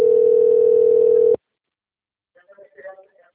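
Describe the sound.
A telephone dial tone after a call hangs up: a loud, steady single-pitch tone that holds for over a second, then cuts off abruptly. After a silent pause, a faint voice is briefly heard.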